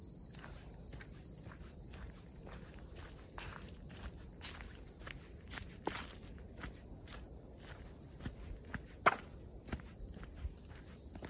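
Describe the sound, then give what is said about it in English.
Footsteps climbing a sand dune over sand and log steps: a long, irregular run of soft crunching treads, fairly faint throughout, with a few sharper, louder footfalls toward the end. “and we're headed back up part of a dune on the sand and log steps.”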